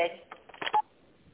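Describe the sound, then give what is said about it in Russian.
Touch-tone keypad dialing of an employee's extension during a call to a pharmaceutical company's automated phone line: a few short electronic beeps in quick succession, the last one loudest and steadiest, then quiet line hiss. “Наберите внутренний номер сотрудника или оставайтесь на линии.”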